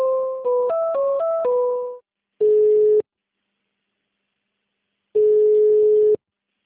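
Busy signal on a call to a municipal office's human resources line: a quick run of shifting two-note tones, then two long, steady, loud beeps separated by silence.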